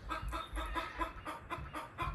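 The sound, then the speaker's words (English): Chicken clucking in a rapid, steady series of short harmonic clucks, moderately loud over a low rumble, with no talk. “Why are you talking so much shit, chicken?”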